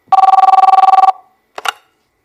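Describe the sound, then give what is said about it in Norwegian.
Ringback tone on an outgoing telephone call: about a second of rapid, buzzing, pulsed ringing, a brief pause, then a short clicking burst as the line is picked up. “Så skal jeg prøve å ringe”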